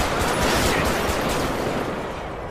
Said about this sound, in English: Dispatch, I got shots fired. I've been hit.